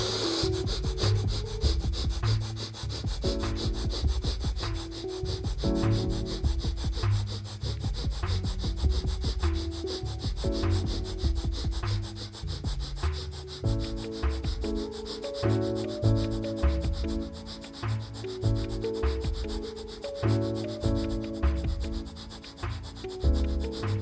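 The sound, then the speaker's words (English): Rapid, forceful breathing in and out through the nose in a breath of fire exercise: many quick, sharp, evenly paced bursts with soft music playing underneath. “Inhale nose, exhale nose. Quicker this time.”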